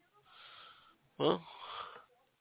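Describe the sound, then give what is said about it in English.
A person yawns: a soft breathy intake, then a louder voiced, wheezy stretch that tails off, heard alone without talk. “Yeah, I yawned.”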